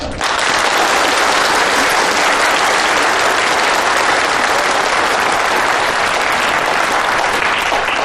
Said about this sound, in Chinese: 下面，请大家热烈欢迎来自海籍的女工朋友们。